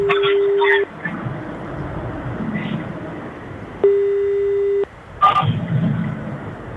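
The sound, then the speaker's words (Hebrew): Telephone ringback tones while a long-distance number is called: two steady one-second tones separated by a gap of about three seconds, over a noisy, rumbling background. “רגע, צריך לחייג ארוך, כי הוא ככה קצת זמן. אנחנו על זה. יכול להיות שהיא עסוקה בהכנות.”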